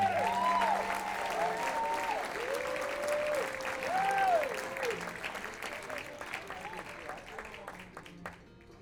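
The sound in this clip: Applause from an audience welcoming a singer-songwriter and five-string banjo player to the stage: dense, steady clapping with a few high whoops and whistles riding over it, gradually thinning and growing fainter toward the end.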